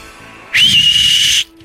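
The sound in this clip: A single flirtatious whistle swoops quickly upward, then holds a long, steady high note for just under a second, loud and clear with nothing else heard.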